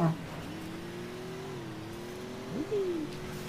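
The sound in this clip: Engine drone of a car being driven in a video game: a steady, sustained hum that holds one pitch, shifts slightly partway through, then dips and rises near the end with a brief swell in loudness.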